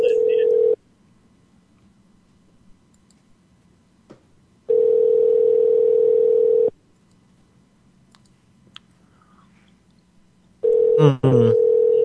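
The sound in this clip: Ringback tone of an unanswered telephone call, a steady low tone in bursts of about two seconds separated by long silences, with three bursts including partial ones and a brief extra sound near the end.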